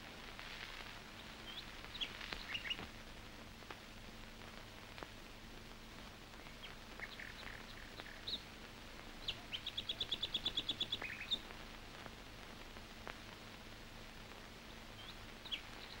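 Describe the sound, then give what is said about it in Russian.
Daytime forest ambience with a steady low hush, scattered faint bird chirps and a brief rapid trill of repeated notes near the middle; no voices. “День, лес. По лесу идут разведчики.”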